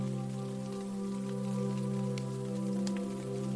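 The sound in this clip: A gentle drizzle of rain falls outside at night, a soft, steady patter with a few brighter drop ticks over a low, sustained tonal hum, and no voices.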